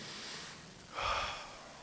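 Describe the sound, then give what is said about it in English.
A deep breath is drawn in: a soft, airy rush of breath that swells into a fuller, louder breathy surge and then fades. It is faint and heard alone. “I just want to like take a deep breath.”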